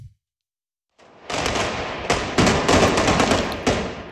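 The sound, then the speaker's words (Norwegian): Bolivian police fire tear gas at demonstrators fleeing in the capital, La Paz, with several sharp, loud bangs going off in quick, irregular succession over a continuous wash of harsh noise. “Her hører vi boliviansk politi som skyter tåregass mot demonstranter som legger på sprang i hovedstaden La Paz.”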